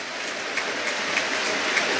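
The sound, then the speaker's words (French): A football stadium crowd applauds during a minute-long tribute, a dense, even wash of clapping with no single claps standing out, briefly and at steady volume. “Et cette minute d'applaudissement qui prend fin à présent.”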